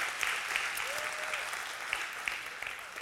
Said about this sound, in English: Let's give all those online a hand right now and welcome them.